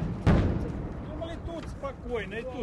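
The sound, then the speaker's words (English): Ukrainian missiles fired a few hundred feet from a group of people, heard as a single heavy boom at the start, followed by people talking. “Suddenly, Ukrainian missiles are fired a few hundred feet from where the group is standing.”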